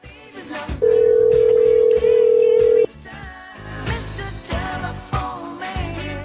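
A telephone ringing tone as a call rings through to voicemail: one long, steady, high beep with a brief break partway through, sounding over background music that carries on alone afterward.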